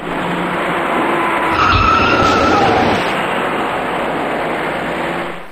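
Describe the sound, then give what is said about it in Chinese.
Tires skid and squeal as a white car speeding up from behind slams into a slowing car, which is pushed into another car in a three-vehicle rear-end collision on a road; a sustained loud screech with a thud near the middle, over steady traffic noise. “从后方快速开来的一辆白色小客猛然撞上了刚刚减速的前车，而被撞的前车又顶上了行驶在前面的另一辆小客。”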